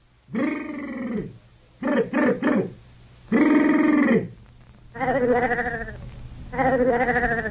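Sheep bleating: a series of loud, wavering bleats separated by short pauses, one of them broken into several quick pulses, with a faint low hum underneath.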